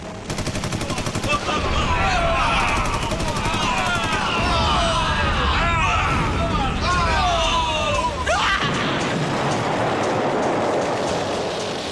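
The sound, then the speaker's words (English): Machine-gun sound effects from a scene of a devastating attack: a loud, dense, continuous rattle of rapid shots with other sounds layered over it, turning into a rougher noise near the end. “Effects here are awesome. It's like actual, like, machine gun and helicopter sounds.”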